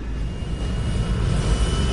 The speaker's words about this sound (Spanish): Motor estable. Comenzando a despegar.